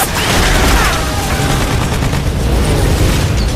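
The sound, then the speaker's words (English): Dense machine gun fire in aerial combat as a four-plane Helldiver dive-bomber squad attacks the battleship Yamato from 1,500 feet, a continuous loud roar of rapid gunfire with heavy booming mixed throughout. “From 1,500 feet, a helldiver squad of four sheds chunks as bullets shred through their thin aluminum skin.”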